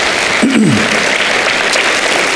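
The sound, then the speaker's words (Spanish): Applause for the Lord during a church service: a steady wash of many clapping hands at a high level, with a short voice cry sliding downward near the start. “Si Dios se habló, da un aplauso al Señor, que se lo merece.”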